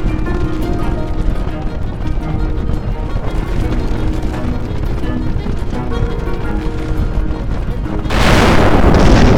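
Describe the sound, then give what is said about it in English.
The volcanic eruption blast of Mount St. Helens: a loud, dense, continuous roaring rumble that surges even louder near the end. “And the mountain is blasting. It's erupting.”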